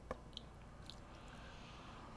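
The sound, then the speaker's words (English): Faint, soft chewing of mochi ice cream, quiet squishy mastication with a couple of tiny crisp clicks, heard alone. “What do you want to try next? One of the orange ones? Yeah, let's do an orange one.”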